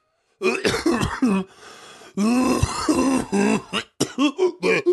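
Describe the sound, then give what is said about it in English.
Coughing and throat clearing come in harsh, rough bursts, a cluster at the start, a short quieter gap, then a long run and several sharp final hacks. “that wasn't performative coughing.”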